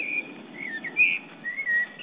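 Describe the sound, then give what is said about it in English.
A blackbird sings several short, fluted whistled phrases, some sliding up or down in pitch. The song is fairly faint and rises and falls in loudness over a steady low hiss. “Sir David Attenborough, accompanied by Blackbird”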